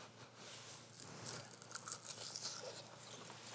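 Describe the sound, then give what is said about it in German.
Crispy asparagus chips crunch and crackle faintly, with an irregular run of small, dry crinkling bits and a few sharper snaps in the middle. “Hörst du, wie sie knuspern? Das ist das Zeichen, dass sie gut sind?”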